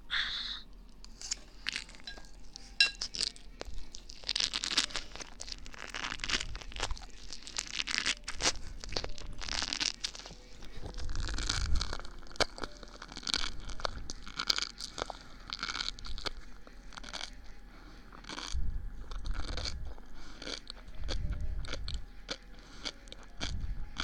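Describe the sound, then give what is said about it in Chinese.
Crunchy biting and chewing of a big mouthful of bad-tasting food: many moist crunches and tearing bites in an irregular rhythm, close and clear, with no talk. “妈呀，从来没吃过这么难吃的东西。直接一大口，”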